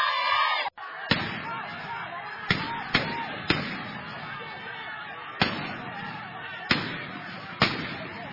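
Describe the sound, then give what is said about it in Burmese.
Police gunfire used to disperse villagers blockading a road in protest, seven sharp cracks at uneven intervals over a rough, noisy background. “ခုကြားရတာကတော့ပြစ်ခတ်နေနေတဲ့အတန်းလေးပါ”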